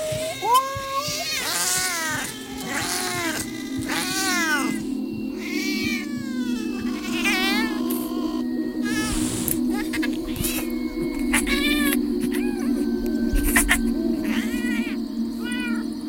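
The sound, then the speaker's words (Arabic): Several cats meow and caterwaul in many overlapping, wavering yowls that rise and fall in pitch, sounding continuously over a steady low drone. “وبدأ صوت القطة يرجع تاني، لكن المرة دي مش قطة واحدة، كانت الأصوات أكتر من إنها تكون قطة واحدة.”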